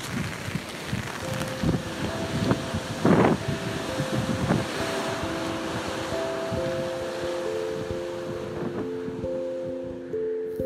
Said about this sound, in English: today it's a little windy and rainy, but this is the sound of that.